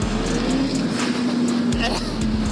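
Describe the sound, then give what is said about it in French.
A motorcycle engine drones loudly under acceleration in third gear at about 4000 rpm on half throttle, with the rear tyre slipping slightly. The pitch stays fairly steady throughout. “Elle a patiné un tout petit peu de l'arrière. Ça pue le pneu cramé.”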